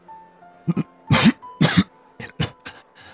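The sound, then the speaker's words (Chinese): An old man coughs into a handkerchief: a few rough, throaty coughs, with two loud bursts in the middle, smaller hacks before and after, and no talking. “穆老爷子拿着手帕捂嘴咳了两声”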